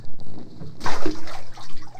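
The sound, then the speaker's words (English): Bath water splashing in a tub, heard as a few irregular, fairly loud sloshing splashes in quick succession. “Splash. Can I splash the water?”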